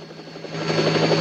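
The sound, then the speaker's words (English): Helicopter flying through a snowbound mountain pass, a steady rotor drone with a constant high engine whine that swells gradually louder, heard alone. “The helicopter continues through the pass.”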